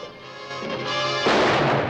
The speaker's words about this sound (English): Emma turns on the kid and puts a bullet into the center of his forehead.